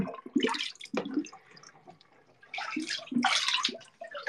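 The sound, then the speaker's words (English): Bathtub water draining, with irregular bursts of gurgling and slurping separated by quieter gaps, the gurgles growing longer and fuller toward the end. “I'm gonna drain my tub and it's gonna sound weird.”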